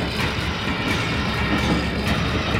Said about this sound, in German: 23. April. Im Zug nach Berlin.